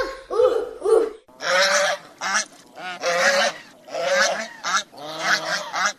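A goose honking in many harsh, nasal calls in quick succession, each short and loud, with brief gaps between them.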